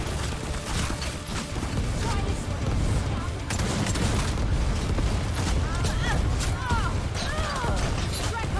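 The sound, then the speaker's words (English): Grenade launchers fire in a video game battle, producing a dense, loud, unbroken barrage of booms, blasts and crashing debris that fills the whole stretch without any quiet gap. “how many grenade launchers do they got?”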